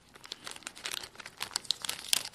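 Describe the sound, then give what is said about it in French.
Card packaging crinkles and rustles as it is opened, a busy stream of crisp crackles and small sharp snaps of plastic and foil with no voices. “Le but du jeu, c'est d'ouvrir l'emballage pour faire un clone de la petite carte. Mais c'est nice, l'emballage, j'aime bien.”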